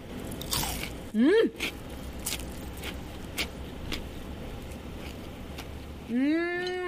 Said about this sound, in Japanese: 小いわしの竜田揚げいただきますね、 はい、 いただきます。